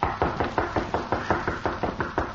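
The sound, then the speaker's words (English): Rapid knocking on the rear door of a house, many firm, evenly spaced raps in a steady quick rhythm with no voices over them. “A short time later, Gimp knocked at the door of the Cutler home. The rear door, Toto.”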